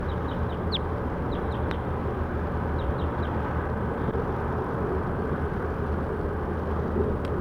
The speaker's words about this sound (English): Recording bird 7-1.